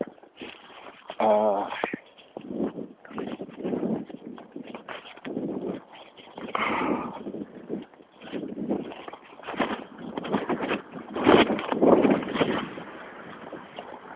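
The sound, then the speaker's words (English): Wind blowing past a microphone, producing uneven rumbling gusts of noise that swell and drop throughout and grow strongest toward the end. “And here comes the wind. I hope there isn't a lot of it that's blowing actually past the microphone.”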